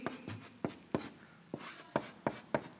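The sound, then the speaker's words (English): Writing sounds as a note is jotted down during a slide presentation: a series of short, scratchy pen strokes in an uneven rhythm, faint and with no talking. “I'll just go ahead and write it down.”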